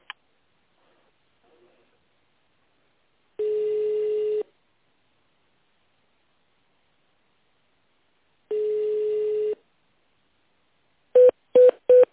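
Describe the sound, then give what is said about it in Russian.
Telephone keypad tones dial an extension number on an office phone line: two long, steady single-pitch tones separated by silence, then three quick, short keypad beeps at the end. “Наберите внутренний номер абонента или дождитесь ответа секретаря.”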